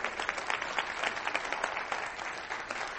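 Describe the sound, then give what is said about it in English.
Audience applause for about twenty women asked to stand: dense, steady clapping from many hands that stays fairly faint and even throughout. “those 20 ladies or so, if you're here, if you would stand, we would just like to give you an applause.”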